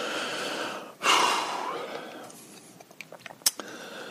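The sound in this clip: Heavy breathing from someone out of breath after a little exercise: one loud, rushing exhale followed by quieter breaths and a few faint clicks.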